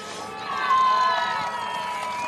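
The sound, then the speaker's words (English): Speedway fans cheering at a National League Riders' Championship meeting, a crowd roar with raised voices that swells early and then holds steady. “I think we can tell by the cheers that the fans are really, really pleased about that.”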